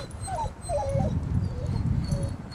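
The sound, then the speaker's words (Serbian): A dog whimpering and whining, shivering as it cries: a few thin, high-pitched whines rise and fall over a constant low rumble. “Kakav je ovo pas, zašto on cvili tu? Pas koji cvili, a ima li vlasnika?”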